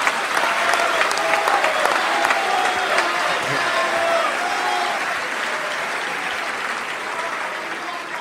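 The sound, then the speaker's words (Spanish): Audience applause at a comedy show celebrating a 90th birthday: a dense, steady wash of clapping that holds at an even loudness for the full eight seconds, with no break or lull. “Pues, un aplauso para Massachusetts.”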